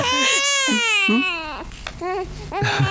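A newborn baby boy cries right after birth, a loud, continuous, high-pitched wail whose pitch wavers, broken by a few short breaths between sobs.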